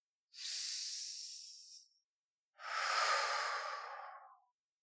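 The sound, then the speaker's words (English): Slow, deep breathing: two long airy breaths, each lasting a second or two and separated by a short pause. They are soft and hissing, with no voices. “And I want you to take a deep breath.”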